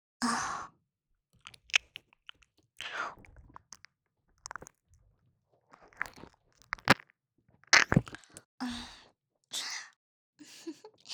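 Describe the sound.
Close-miked ASMR ear nibbling and biting, with many soft wet crunches and nibbles in short clusters separated by silence. Breathy sighs appear at the start and near the end.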